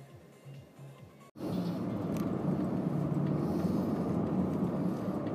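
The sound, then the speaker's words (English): A car drives along a road, its low, steady rumble and road noise starting abruptly after a brief quieter stretch, then holding a constant, moderately loud level to the end. “On the move. We're podcasting and driving at the same time.”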